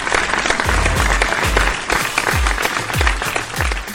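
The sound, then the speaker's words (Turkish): Applause for the Vakıfbank women's volleyball team, dense and steady clapping throughout, with a regular low thumping beat running beneath it. “Ben bir tebrikle başlayacağım programa. Vakıfbank kadın voleybol takımını alkışlayayım da.”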